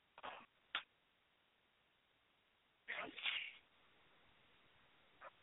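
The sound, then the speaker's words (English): Repeated sneezing: a few sharp, explosive bursts spaced irregularly, with quiet gaps between them and a longer double sneeze in the middle. “after like 10 sneezes”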